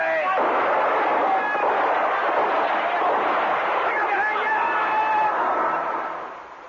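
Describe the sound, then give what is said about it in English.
Gunfire laid down as cover fire during a raid on smugglers with a SWAT team and choppers: a loud, continuous rattling barrage of dense shots that holds steady, then fades at the very end. “Well, give him some cover fire.”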